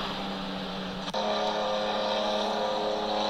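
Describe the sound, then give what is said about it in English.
Loud engine roar from a 2017 991 Gen 2 RSR flat-six race car, a dense, steady drone broken once by a brief sharp dip before it resumes at full strength. “Is that a flat six? Is that a 17 RSR 991 Gen 2? Yeah. Loud one.”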